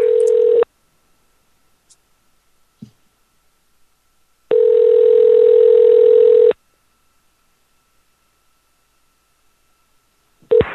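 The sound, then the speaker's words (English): Telephone ringing tone while a call goes through to a KFC restaurant: a steady electronic tone sounds in pulses, one long two-second tone between long silent gaps, with a brief tone returning at the end. “We got one more. Let's call another KFC.”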